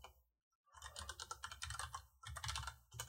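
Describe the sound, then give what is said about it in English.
Typing on a computer keyboard: many faint, quick key clicks in irregular runs, with a short pause near the start and another brief break later on. “In fact, I'm like typing it right now.”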